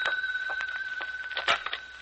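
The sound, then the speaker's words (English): A telephone rings with a continuous warbling electronic trill, fairly faint, broken by a few soft knocks. “But then, the next day, as I walked into the house, the phone rang.”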